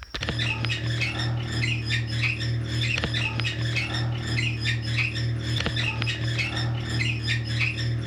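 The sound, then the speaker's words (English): Rhythmic, scratchy squeaking from a clothes dryer repeats steadily over a constant low hum, with a faint click recurring every few seconds; no voices. “Here's the sound of the squeaking dryer from the last podcast.”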